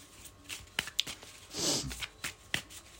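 Fortune-telling cards being shuffled by hand: papery riffles and swishes broken by a few sharp snaps, with a longer, fuller swish in the middle of the run.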